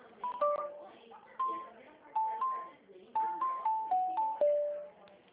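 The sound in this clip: Telephone dialing tones sound while a call is being transferred. Many short electronic beeps come in irregular bursts at shifting pitches, thin and band-limited like a phone line.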